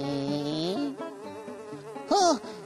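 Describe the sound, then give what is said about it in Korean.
A dung fly buzzes in flight, a faint, wavering whine that bends up and down in pitch and swells briefly louder near the end. “아, 똥파리 비행사님이 태워주셨어요.”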